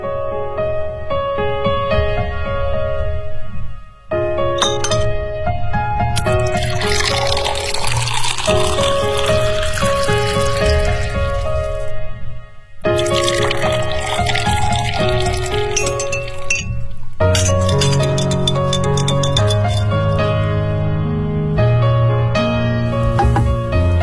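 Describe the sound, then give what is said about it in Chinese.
Ice and glass clink as a cocktail of gin, blue curaçao, tonic water and ice is mixed, with liquid splashing and pouring in a dense, continuous stream of clatter and brief pauses. “这是你的鸡尾酒，它是由金酒、蓝城立交酒、汤力水和冰块调成的，名字叫做魔镜”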